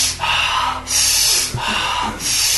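Rapid, deep hyperventilation-style breaths from a breathing exercise, heard as loud, airy rushes of inhaling and exhaling. They repeat in a steady, quick rhythm with no talk.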